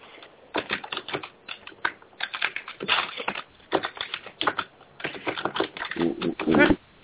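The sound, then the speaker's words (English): Rapid keyboard typing: many sharp, irregular clicks in uneven bursts, dense and clattery, at times with a rough, scratchy edge. “Okay, somebody's typing the story.”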